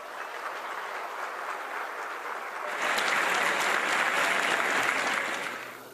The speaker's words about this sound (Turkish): çok güçlü alkışlarınızla buraya davet ediyorum